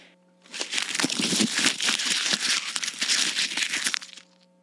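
A paper mail envelope is torn open, producing about three and a half seconds of steady, close crinkling and ripping paper with no voices.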